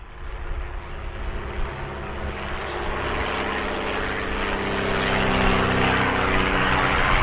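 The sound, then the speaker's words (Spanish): A crop-dusting light aircraft sprays a field bordering a school, giving a continuous, loud engine drone that grows gradually louder and stays steady throughout, with no pauses. “esta avioneta que está fumigando, fumiga un campo que linda con la escuela 4, que está en Parada Robles”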